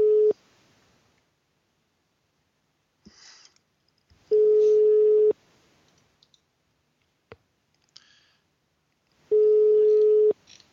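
Line tone from a telephone call placed to a mobile phone: a steady beep of about a second repeats at regular intervals, with faint clicks and small blips in the quiet between.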